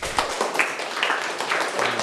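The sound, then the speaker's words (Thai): Students give a classmate a short round of applause: a few light, scattered claps rather than a dense ovation, with no cheering. “ปรบมือให้เพื่อนครับ”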